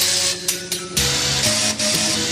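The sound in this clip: Chainsaws played as music by a group: sustained buzzing, engine-like tones layered at several pitches, shifting to new notes every so often, with a few brief dips in loudness between phrases.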